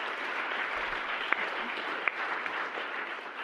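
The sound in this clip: Audience applause welcomes a speaker, an academic author, at a debate session: steady, sustained clapping at an even level throughout, with a couple of sharper individual claps standing out and no voices.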